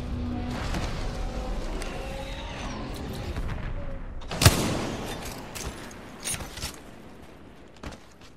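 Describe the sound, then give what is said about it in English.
Gunfire in the video game Apex Legends during a solo ranked match: one sharp, loud shot cracks over a low game hum, followed by a few fainter bangs. “Opening fire on the enemy. I am taking fire, friend.”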